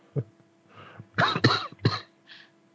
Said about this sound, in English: Smoker's cough, too.